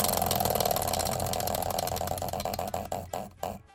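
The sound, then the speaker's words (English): Prize wheel spun during a game segment, fairly faint rapid ticking clicks that gradually slow and spread apart as the wheel winds down toward a stop. “give that wheel a spin and let's find out next week's word”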